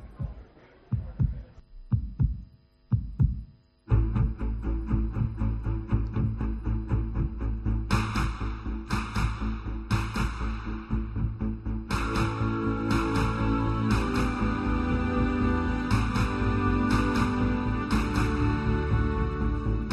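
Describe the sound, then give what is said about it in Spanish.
Spanish football league anthem mixed at Abbey Road studios from the heartbeats of 90 newborn babies and the claps of first- and second-division fans: a few deep, throbbing thumps open alone, then a full, loud musical track swells in and builds. “una base musical muy emocionante, latidos de corazón de bebés recién nacidos, 90 bebés recién nacidos, se grabó el latido de su corazón, palmas de los aficionados de todos los equipos de primera y segunda, y todo eso mezclado en un estudio de grabación”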